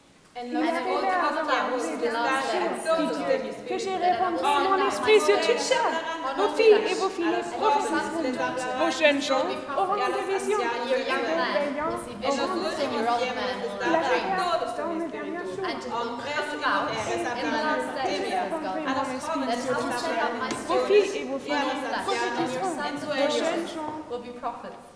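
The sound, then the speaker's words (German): Festive crowd chatter, with many languages spoken at once, forms a dense, continuous babble of voices that stays steady in loudness throughout. “Wir merken schon, es ist ein festliches Stimmengewirr, ein fröhliches Durcheinander.”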